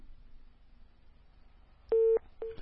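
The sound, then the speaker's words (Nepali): A telephone busy tone sounds after a caller's line is cut: faint line noise, then two steady, mid-pitched beeps near the end, the second cut short. “कोही साथी हुनुहुन्थ्यो, उहाँको telephone कटेको छ”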